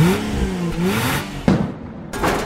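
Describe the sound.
A racing car engine revs as a drag racing sound effect, a throaty wavering whir that climbs and dips, then a sudden loud burst and a brief cut before the roar resumes.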